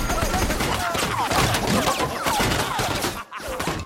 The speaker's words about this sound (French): Joe Dalton va chercher une mitrailleuse maxi gros calibre, genre euh, grosse Bertha, tu vois, mais en sulfateuse, et il se met à tirer à vue sur El Tarlo dans une séquence interminable.